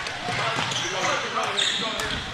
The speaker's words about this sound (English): Dunn picked up his dribble, lost control, then tried to gather it again and make a pass.